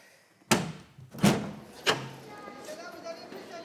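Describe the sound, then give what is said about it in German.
A window being opened in a hot room: three sharp knocking thuds from the frame and latch, spaced about evenly, each one dying away quickly into a quiet background. “Ich werde das Fenster öffnen. Hier ist es sehr heiß.”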